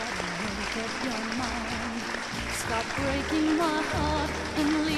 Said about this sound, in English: adorable, cute Chester audience, give yourselves a big hand and a big hand also for Joseph Church and Bruce Vilanch.